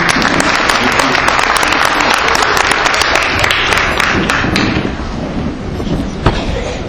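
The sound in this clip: Applause from an audience for schoolchildren at a school district meeting: steady, dense clapping that fills the whole clip and thins slightly toward the end.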